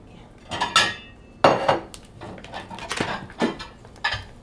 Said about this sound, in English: So here are the buns. Roast beef.